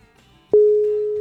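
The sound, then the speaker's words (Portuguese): A telephone call signal while dialing someone: after a near-silent moment, a single clear, steady electronic tone starts abruptly and holds at one pitch to the end. “eu vou fazer uma ligação, vamos ver se ele atende”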